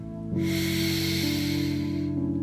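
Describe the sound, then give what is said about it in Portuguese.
A single long, deep breath gives a soft, airy hiss lasting about two seconds over a quiet, sustained musical tone, with no talking. “eu quero te convidar a respirar junto comigo. Respire fundo.”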